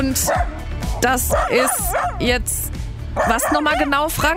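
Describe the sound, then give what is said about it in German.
A dog barks, yips and whimpers next to a bicycle trailer. Many high, whiny yelps and short barks come in quick bursts while a man talks over them. “Das ist mein Hund Cooper. Ich glaube, er sagt damit, ich mag diesen Fahrradanhänger nicht so wirklich.”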